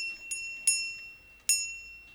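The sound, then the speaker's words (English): A little shop bell in a bookshop rings in three bright, high tinkles. The first is faint, and the second and third are louder, each leaving a lingering shimmering ring in an otherwise quiet space. “That was Claire Harris from Lutyens Rubinstein Bookshop in West London, where they have a little bell. They have a little bell,”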